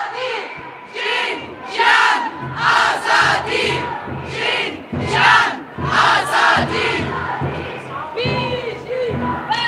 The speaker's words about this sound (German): Ja, ihr gehört, verschiedenste Parolen werden da skandiert an der heutigen feministischen Demonstration.